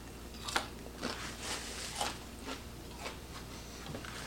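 Chewing on cooked bacon, a quiet series of soft crunchy bites repeating roughly every half second, faint and with no talking.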